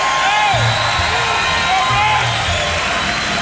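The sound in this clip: Concert audience cheering and applauding for a blues guitarist, with whoops and whistles in a steady, dense roar while a man speaks over it.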